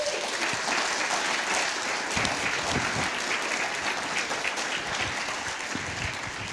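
Warm applause from a church audience welcoming a pastor to the front, with many hands clapping in a steady, continuous wash and a few louder claps standing out, lasting several seconds at an even level.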